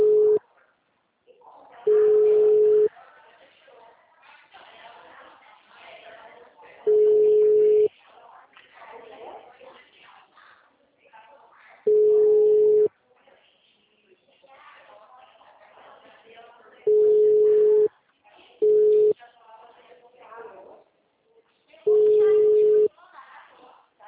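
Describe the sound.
Telephone line tones during a call transfer, with six steady beeps at fairly regular intervals and a faint murmur on the line between them.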